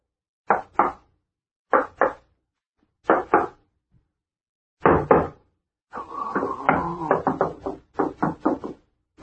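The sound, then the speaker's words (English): Someone taps along a wall, listening for a hollow spot. Short clusters of hollow knocks come with pauses between them, then a longer run of quick raps. “Keep your ears open and listen for any hollow sound.”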